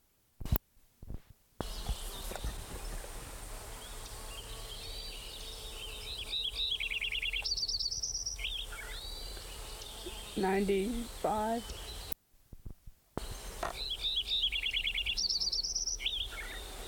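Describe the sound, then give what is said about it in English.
Lincoln's sparrow song in a meadow in July: bright, bubbly trilled phrases come in two main bursts, with a few lower chirps between them and a steady hiss underneath. “Lincoln Sparrow number 6 continued.”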